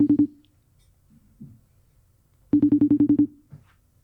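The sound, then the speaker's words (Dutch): Pulsed telephone ringing on an outgoing call: a short burst of quick buzzing pulses, then a pause, then a longer run of about eight steady pulses. “Dus ik zou hem even gaan bellen en kijken of die wordt opgenomen.”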